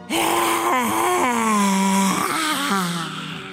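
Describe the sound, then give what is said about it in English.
A voiced exhale during a guided breathing exercise: one long, loud, moaning breath out that holds a tone whose pitch wavers and steps downward, heard alone without speech. “Once more, breathe in. Vocal breath.”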